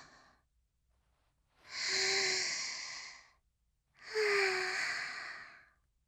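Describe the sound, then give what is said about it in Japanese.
Two long, deep breaths taken as a calming breathing exercise, each a breathy exhale with a slight voiced sighing tone, separated by quiet pauses. “こういう時は一緒に深呼吸しよう。”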